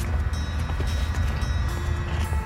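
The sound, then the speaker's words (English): A ship's engine runs as a steady, continuous low rumble with a constant droning hum, even in loudness throughout and with no voices over it. “It is the best sounding engine.”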